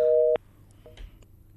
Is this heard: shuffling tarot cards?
no